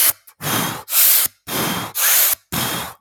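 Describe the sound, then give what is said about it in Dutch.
Forceful breathing in and out through the mouth: five loud, rushing breaths follow one another in quick succession, each a broad, airy burst with short silent gaps between them. “Dus heel krachtig in door je mond en ook heel krachtig uit door je mond.”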